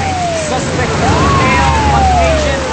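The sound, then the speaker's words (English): Siren wail from a police squad car arriving at the same moment as a vintage Ford Mustang. A thin wavering siren tone rides over a steady low engine rumble for the whole stretch. “Now, a vintage Ford Mustang and a squad car arrive simultaneously.”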